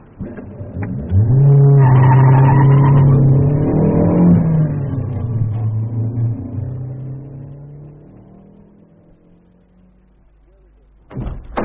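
A car engine drives past, rising in level as it revs, holding a steady droning hum for several seconds, then sinking lower in pitch and fading away, with a sharp knock at the very end.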